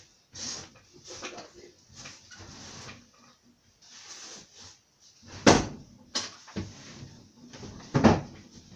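Sticking drawers being tugged open and pushed shut, a drawn-out series of scraping slides broken by several sharp knocks as they close, some louder than others, with no talk.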